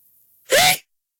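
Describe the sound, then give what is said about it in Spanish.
A single sneeze, one short and fairly loud burst of breathy noise, stands alone between stretches of near silence. “Ah, discúlpame. Por fin pude estornudar al aire, mira. Antes no podía.”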